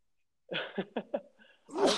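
A person sneezes: a few short, voiced gasping breaths build up before a loud, breathy burst at the end, all fairly faint and alone without talk.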